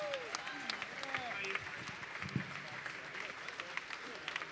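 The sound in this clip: Audience applause welcomes a performer to the stage at a live jazz show in New York City: faint, steady clapping and crowd noise with scattered voices.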